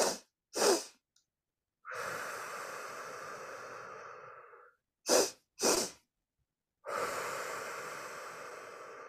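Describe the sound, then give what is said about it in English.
Physiological sigh breathing: two quick, sharp nasal inhales, then one long, slow, steadily fading exhale. The full cycle is done twice, with a brief pause between rounds and no voices. “research from UCLA, they were looking at the physiological sigh, which is inhaling twice through the nose and then a long slow exhale out through the mouth or nose. So it sounds like this.”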